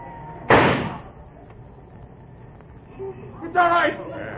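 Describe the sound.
A single loud, sharp gunshot bursts out in a radio drama and decays quickly, with a voice heard speaking a few seconds later.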